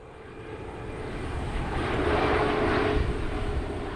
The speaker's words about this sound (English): It sits under the path to a landing strip for Toronto's International Airport.